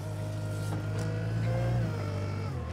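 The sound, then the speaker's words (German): A wheel loader drives, its engine giving off a steady, low, rumbling drone that holds fairly even throughout, with a slight change in tone near the end. “muss mit dem Radlader zuarbeiten. Den genau dorthin zu lenken, wo er hin soll, ist am Anfang gar nicht so einfach.”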